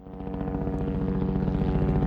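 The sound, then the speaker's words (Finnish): Low-flying helicopter used for trimming trees along power lines, a steady loud drone with fast rhythmic rotor thumping that holds throughout the two seconds. “Helikopteri lentää matalalla ja aiheuttaa jonkin verran melua.”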